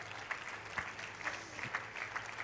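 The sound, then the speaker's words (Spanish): Faint applause for the Lord from a church audience, a soft wash of clapping with evenly spaced, sharper accents in a steady rhythm. “denle un aplauso al Señor por el ministerio”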